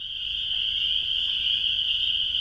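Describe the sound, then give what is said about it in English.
Frog calls rise from a Wisconsin wetland in late April, a continuous high-pitched trilling chorus that holds steady and fairly loud throughout, with no talking. “They drive to lakes, ponds, and wetlands across the state to listen for frog calls.”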